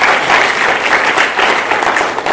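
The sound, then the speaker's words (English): Loud audience applause for two speakers, a thick, continuous roar of many hands clapping together, swelling slightly and then holding steady for the whole stretch. “Can you all clap for Murimi and Oke Murimi?”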